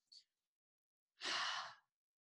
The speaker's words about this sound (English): so we're breathing through our nose. Through my nose, bring it into my belly. And then as I'm exhaling, it's bringing up through my chest and then exhale out my mouth. So it sounds like this.